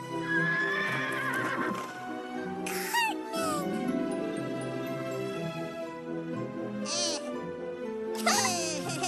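A horse whinnies several times with shrill, wavering neighs, alongside faint hoof clip-clop, as it is ridden through a meadow.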